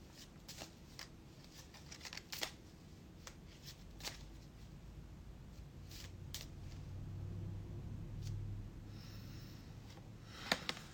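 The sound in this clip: Cards are shuffled for a card pull. The rustling is very faint and scattered with soft clicks and snaps, and no one speaks.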